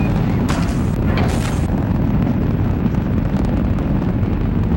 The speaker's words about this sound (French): Et le bruit assourdissant de la fusée qui s'arrache du sol résonne à des dizaines de kilomètres à la ronde.